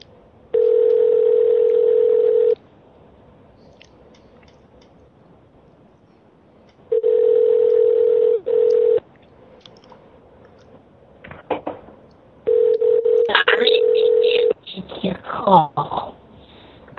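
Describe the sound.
Telephone ringing tone with three steady buzzing bursts of about two seconds each, separated by silent gaps. Voices and clattering sounds come in around the final ring and continue after it.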